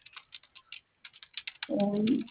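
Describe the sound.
A code being keyed in by hand on the keypad of a cash box: many quick, light button clicks in an uneven rhythm, followed by a longer, louder tonal sound at the end.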